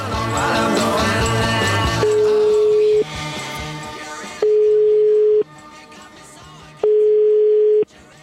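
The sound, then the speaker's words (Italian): Ringback tone of an outgoing phone call to a home: three steady, mid-pitched tones of about a second each, separated by pauses, with music playing under the first tone. “Lo abbiamo chiamato a casa. Sentite.”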